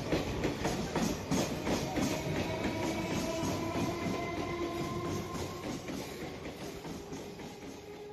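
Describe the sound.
A train runs on rails on a journey between stations, with a steady rumble and a continuous clickety-clack that fades slightly over time. No voices are heard.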